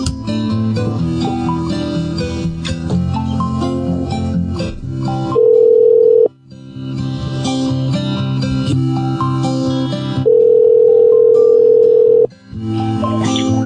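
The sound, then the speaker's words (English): A voicemail tone sounds as a long, steady electronic beep, heard twice, each lasting a second or two. Loud music plays in between and around the beeps. “Not available. Please leave a message after the tone.”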